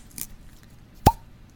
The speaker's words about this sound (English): let me take a crack of this sucker. Now, it's got a classic cork on it.